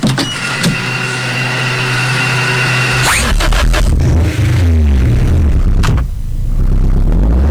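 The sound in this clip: A car engine runs with a steady low hum that changes character about midway, giving way to mechanical whirring and scraping sounds, with no talk.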